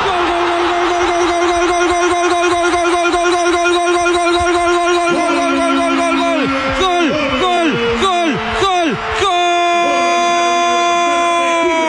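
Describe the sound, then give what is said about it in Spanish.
A loud horn blown by fans in a football stadium sounds a sustained, buzzing tone that steps down in pitch, then gives several falling blasts before a steady tone resumes, with a voice talking beneath it. “Fuerte ese pito.”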